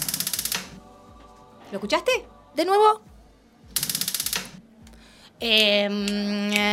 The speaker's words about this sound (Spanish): Para poder prender el horno necesito fuego. Entonces, ¿puede llegar a ser un magiclic? Perfecto. Claro que sí.